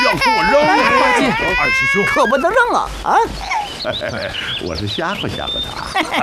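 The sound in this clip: A baby cries in high, wavering wails with rising and falling pitch, loudest at the start. Voices talk over and after the crying as it breaks into shorter sobs.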